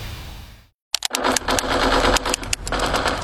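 Video game sounds from play with a controller: after a brief silence, a dense stream of rapid, sharp gunfire-like bursts over a loud engine-like roar.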